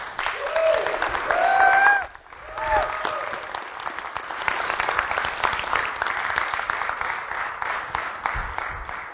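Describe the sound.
An audience applauds to welcome a speaker, a dense, steady clatter of clapping with a few high cheering shouts or whistles early on. The clapping dips briefly, then carries on evenly.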